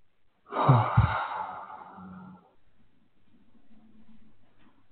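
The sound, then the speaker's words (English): Deep breath exhaled with a soft, audible sighing noise, one long breath-out that swells and then trails into quiet, faint breathing. “Maybe make a little noise when you exhale”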